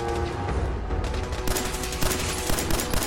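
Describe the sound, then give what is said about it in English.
Rapid gunfire in a video game as shots are fired at a synth enemy: dense, loud bursts of shots that thicken partway through, mixed with steady tonal game sound. “Oh, here is the synth that Nick is shooting at.”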